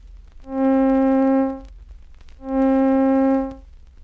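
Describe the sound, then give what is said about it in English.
A middle C tone sounded twice with slow growth, long duration and slow decay. Each note swells in gradually, holds steady with a rich, buzzy, organ-like timbre for about a second, then fades slowly over a faint background hiss. “Taking the same note with which we have been working, the middle C, we find that slow growth, long duration, and slow decay give it a sound like this.”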